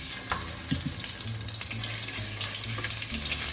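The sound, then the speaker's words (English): Tomato paste frying in oil and bacon fat, a steady, soft sizzle that crackles evenly from start to finish. “you want the tomato paste, you wanna spread it around, and you want it to caramelize in the oil and the bacon fat”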